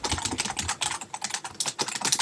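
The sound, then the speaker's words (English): Rapid typing on a computer keyboard while notes are taken, many quick, crisp clicks in an uneven, steady stream with no voices over it. “I'm going to type on my computer here so I don't forget when I'm doing the notes here.”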